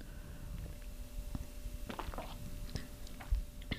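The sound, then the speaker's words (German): A person taking a quick drink: soft gulps, small mouth clicks and swallowing noises, faint and irregular over a quiet hiss. “muss ich mal kurz was trinken.”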